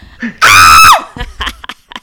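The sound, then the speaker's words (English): A woman screams on a video call, one loud, high, sustained burst that drops in pitch as it ends, followed by short bits of talk. “get ready for her to scream”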